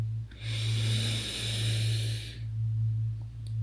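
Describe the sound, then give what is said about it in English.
A deep belly breath drawn in during a relaxation exercise: one long, steady, breathy inhalation lasting about two seconds, moderately loud over a constant low hum, with no talking. “Take a deep belly breath in.”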